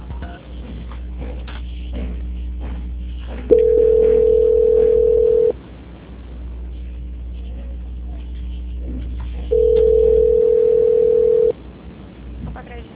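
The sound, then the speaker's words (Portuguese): A telephone line tone plays while a call is transferred and put on hold: two long, steady, mid-pitched beeps of about two seconds each, separated by a gap, over a constant low hum and faint line noise. “por gentileza, a ligação ficará muda, eu peço que não desligue. Transferência.”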